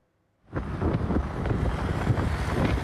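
Strong wind blows outside a hair salon in Aksaray. After a brief silence it sets in suddenly and buffets the microphone with a loud, steady roar to the end.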